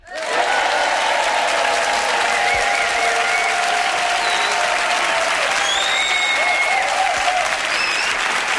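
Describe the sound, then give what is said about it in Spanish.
Live audience at a comedy talk show clapping, steady, loud, sustained applause that starts abruptly and continues evenly to the end. “aquí en directo con 357.452 personas, todas del movimiento MAGA, que suenan así.”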